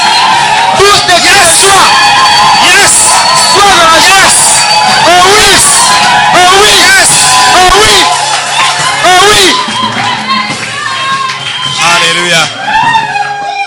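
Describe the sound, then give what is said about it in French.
A crowd at a church worship service shouts and cheers for joy, with loud, continuous whoops and yells rising and falling throughout amid dense voices. “Oh oui, tous des cris de joie pour le roi des rois.”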